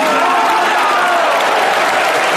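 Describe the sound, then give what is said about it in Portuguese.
A church audience at a Pentecostal-style service claps in dense, continuous applause, a loud, even wash of many hands that holds steady throughout without breaks. “Mais forte as palmas para o Rei. Glória a Deus.”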